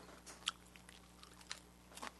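Crunching bites of black pepper rice crackers (kuro koshō sen) from a Saitama company, a few sharp, brittle crunches spaced apart over quiet chewing, faint and without talk.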